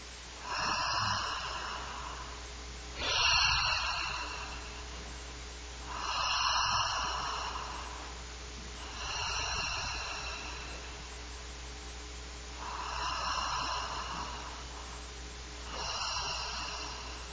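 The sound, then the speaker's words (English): Deep breaths taken during a meditation: slow, airy inhales and exhales that swell and fade in a regular rhythm, fairly soft over a faint steady hum, with no talking. “So let's take the prayer of 3 deep breaths, and then I'll pause back out.”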